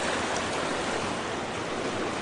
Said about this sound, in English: That's the only bridge that has not got water hitting. Well, it hits on both ends. It's actually hitting it.